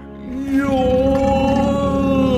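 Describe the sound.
A big, drawn-out human yawn stretched like a lion's, a groaning voiced tone that climbs in pitch and then holds steady and loud.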